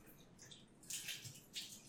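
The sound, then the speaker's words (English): Running tap water rinses cherry tomatoes, a faint steady trickle with two brief louder bursts of splashing as the tomatoes pass under the stream. “So I'm just going to rinse them off and then stick them in a little glass Pyrex square pan.”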